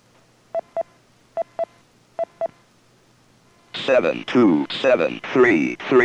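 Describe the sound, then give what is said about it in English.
DTMF telephone tones replay the last number dialed through a phone patch: six short, clear beeps in three evenly spaced pairs, followed by a voice speaking. “Let me check the last number dialed through the patch.”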